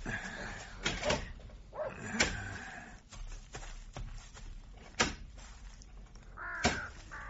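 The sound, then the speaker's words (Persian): A crow caws a few times, the harsh calls standing out over sharp knocks and a rough, steady background. “آن کلاغی پرید از فراز سر ما”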